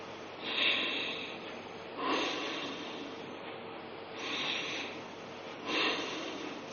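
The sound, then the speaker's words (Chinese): Forceful breathing in and out through the nose during a breathing exercise, mouth closed, teeth apart and tongue raised. Four strong, rushing snort-like breaths come in a slow, even rhythm with quiet gaps between them, and no talking. “就是嘴巴自然关闭，牙齿打开，舌头悬起，用鼻子进行强力的吸入和强力的吐出。我做一遍大家看。”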